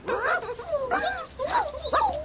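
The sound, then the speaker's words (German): Puppies whimper in a run of four high, whining yips, each bending up and down in pitch, with small gaps between them. “Oh, die armen Hundebabys.”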